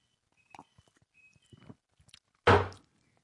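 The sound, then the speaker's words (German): Sipping coffee: a few faint clicks and soft taps, then one short, loud slurp. “Mal kurz einen Schluck Kaffee hier.”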